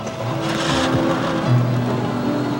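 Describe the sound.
A car driving off from a bus depot, a steady low engine rumble that swells briefly midway and continues without a break.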